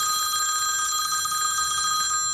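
A telephone rings with a steady, high electronic warbling trill that sounds continuously and fairly loudly throughout, with no voices over it.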